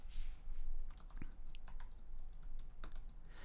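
Keyboard typing as a note is written down: quiet, quick key clicks in an uneven patter, with no voices.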